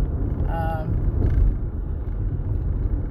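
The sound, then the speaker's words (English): A car being driven gives off a steady, fairly quiet low rumble that runs without a break. “I told you I was in the car. I was driving all on the edge”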